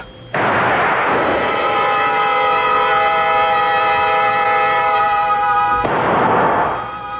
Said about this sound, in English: A shot from a gun.